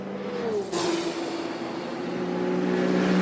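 A Corvette race car engine roars during the Le Mans race. The engine note dips in pitch early on, then holds a steady drone that grows louder toward the end.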